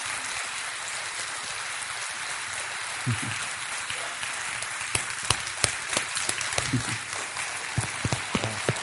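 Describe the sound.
People at the Granite Mountain Hotshot Memorial applaud to welcome the chief of the Prescott Fire Wildland Division. The clapping is a steady, hissing wash of many hands, with sharper individual claps standing out in the second half.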